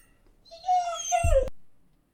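A dog whimpers once, a short high-pitched whine that swells, then breaks off into a brief low thump.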